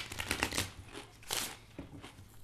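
Playing cards being dealt at a table during a card game: a few brisk bursts of papery flicking and riffling, with quieter gaps between them.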